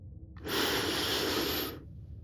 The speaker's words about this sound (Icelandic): Öndum inn.